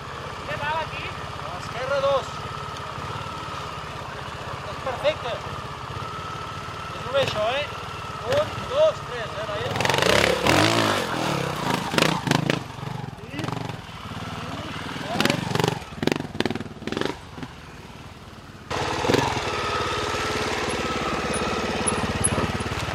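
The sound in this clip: Trial motorcycle engine, loud and rough, with irregular bursts of revving over a steady running drone.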